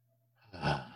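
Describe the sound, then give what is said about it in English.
A single deep breath, faint and breathy, swelling up from near silence to a soft peak and then slowly tapering away. “take another deep breath real quick”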